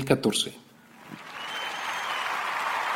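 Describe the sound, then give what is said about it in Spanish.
Applause stands in for a show's opening theme. A short burst of voice comes first, then steady, dense clapping swells and holds to the end. “Y seguimos con aplausos a falta de intro.”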